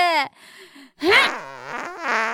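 A person farting: a short buzzy burst, a quieter stretch, then a longer, louder, wavering and rasping blast that carries on to the end.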